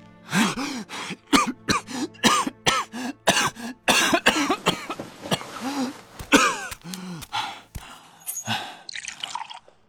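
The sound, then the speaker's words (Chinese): A voice performs a long coughing fit, like someone nearly drowned: many rapid, harsh, loud coughs broken by choking gasps and strained groans, tapering into weaker hacks at the end. “好似溺水的人一样咳了半天”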